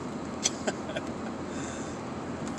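A car is driving at about 5:30 to 6 in the morning, with a steady, low engine and road rumble throughout and a few faint clicks.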